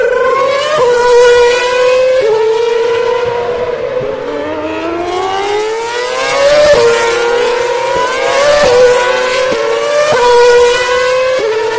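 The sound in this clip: Formula One cars run on the pit lane speed limiter: two HRTs followed by a Marussia. Loud, buzzing harmonic engine notes stutter in steady steps, with several gliding pitch shifts and swells as the cars go by.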